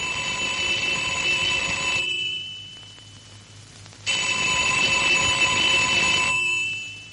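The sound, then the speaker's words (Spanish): A telephone rings insistently in a half-dark room of a house: two long bursts of bright, shrill electronic ringing split by a pause of about two seconds, with no voices. “el teléfono vuelve a sonar con insistencia”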